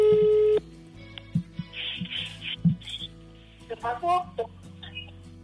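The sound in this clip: A single steady telephone tone sounds after a call is hung up, loud but lasting well under a second at the start, then gives way to people talking.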